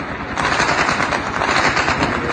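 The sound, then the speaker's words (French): Gunfire echoes through a neighbourhood during a night operation by armed security forces: many rapid shots blend into a loud, continuous crackling barrage. “Puis des tirs, par centaines cette fois, qui résonnent dans le quartier.”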